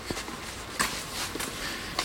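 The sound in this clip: Footsteps walking between terraced houses in drizzle come as a few soft, scuffing steps over a steady wet hiss.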